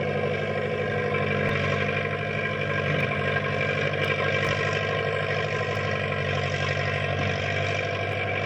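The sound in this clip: Steady, loud engine drone from a tractor nicknamed Big Brute, a cat shoving snow drifts aside, holding an even, unbroken rumble throughout with no voices.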